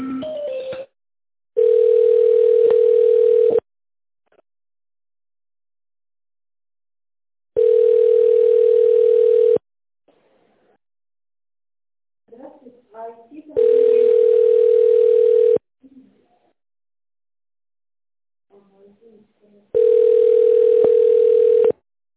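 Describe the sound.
Four long, steady telephone line tones, each about two seconds, play while a call is transferred to a manager. Quiet gaps separate them, with brief faint sounds in between.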